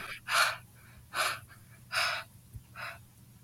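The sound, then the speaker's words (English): Heavy, gasping breaths from someone who is out of breath. There are four loud, airy breaths in an even rhythm with short quiet gaps between them, and no one talks. “All right, I'm kind of out of breath. Give me a second.”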